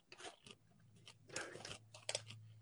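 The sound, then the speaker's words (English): Crunchy chewing of dried coconut: a few irregular bursts of crisp crunching and grinding, moderately loud, with a steady low hum underneath. “It just, it's dried coconut. Dry so, coconut.”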